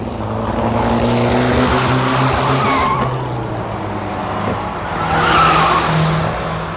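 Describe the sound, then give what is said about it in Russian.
Car engine accelerating and turning sharply at a crossroads: a steady, loud motor drone with layered humming tones that shift as the vehicle gathers speed, heard alone with no voices. “На перекрестке Лео увеличила ход, постепенно поворачивая руль, и машина повернулась в дюйме от бордюра пешеходной дорожки.”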